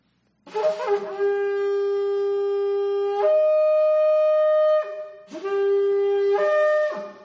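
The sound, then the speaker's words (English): Two long, loud blasts of a shofar ram's horn trumpet, each a sustained, buzzy tone rich in overtones that jumps to a higher pitch partway through before cutting off. “This is the sound of the shofar. I can't take it up here and not blow it.”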